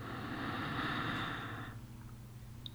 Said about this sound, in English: Let's all begin to just take a deep breath and inhale.